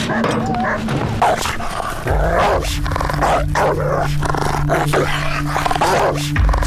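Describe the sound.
A dog barks and growls loudly in rapid, overlapping bursts that continue without a break from start to finish.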